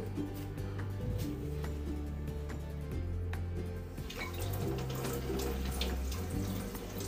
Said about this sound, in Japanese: なんかもう野菜って洗うのめんどくさいんだけど本当に大葉も洗った方がいいよね